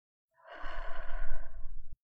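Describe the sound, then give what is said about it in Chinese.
A single long, soft breath from a guided breathing exercise, drawn in through the nose and let out slowly, with a sighing, airy quality and no talk over it. “嘴巴呼气。从鼻子吸气进来，留意自己的胸腔在慢慢扩张，我们的肺部充满了空气。”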